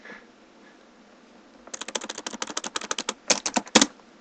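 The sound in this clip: Fingers tap out a command on a computer keyboard: after a quiet start comes a quick run of many crisp keystrokes, with a brief pause and a final few sharper clicks.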